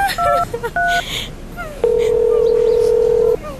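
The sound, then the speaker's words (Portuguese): Touch-tone dialing of the child helpline number 116 on a telephone: a few short two-tone beeps, then after a pause a single long steady tone from the line. “Pega no telefone e liga agora para 116, que é a linha Fala Criança.”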